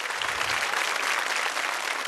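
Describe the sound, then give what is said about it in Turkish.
A studio audience at a televised music show applauds in a steady, dense wash of clapping, fairly faint and without voices. “Çok kıymetli alkışlarınızla saygıdeğer partnerim, kıymetli abim Selahattin Alpay'ı huzurlarınıza davet ediyorum.”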